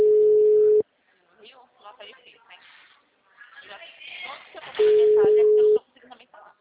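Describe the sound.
Ringback tone of an unanswered phone call: two steady one-second tones about four seconds apart, with people talking in the gap between them.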